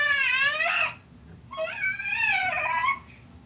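A young daughter, cranky and vocal, cries and fusses in two high, wavering wails separated by a short pause, above a low background rumble.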